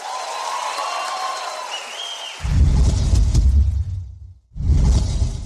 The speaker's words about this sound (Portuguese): Obrigada, muito obrigada. Mais aplausos.